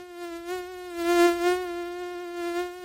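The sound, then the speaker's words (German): Mosquitoes whine in a thin, high, continuous drone that holds steady in pitch and wavers gently in loudness, heard alone with no other sounds. “Dieses Geräusch hat schon so manchem den Schlaf geraubt. Gerade in den warmen Sommermonaten haben Stechmücken Hochsaison.”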